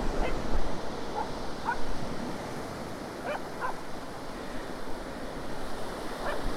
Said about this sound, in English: The tide is going out, so I'll be able to head over straight onto Pendour Beach.